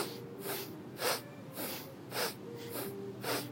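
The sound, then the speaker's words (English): Six sharp, breathy snorting inhalations come in an even, quick rhythm during a breathing exercise done while bending and straightening the knees. Each one is a short rush of air with quiet gaps between. “You seem to be snorting at a different rate than you're doing your legs.”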